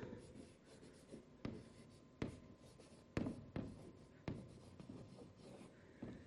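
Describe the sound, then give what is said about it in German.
Handwriting with a pen on paper, faint scratchy strokes punctuated by several sharp taps and clicks at irregular intervals. “Ich schreibe das hier mal mit dazu.”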